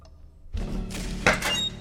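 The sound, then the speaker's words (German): A front door of a house is battered: a heavy thud starts a rumbling stretch of blows, and a louder, sharper cracking impact follows, alone with no voices. “Während an der Vorderseite des Hauses die Tür bearbeitet wurde,”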